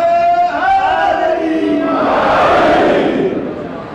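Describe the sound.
A crowd at a religious gathering shouts a slogan, a single raised voice first, then a broad, loud roar of many voices that swells and fades away.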